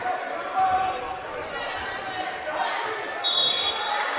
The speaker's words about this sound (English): They're dribbling and really unopposed and just dribbled it with both hands.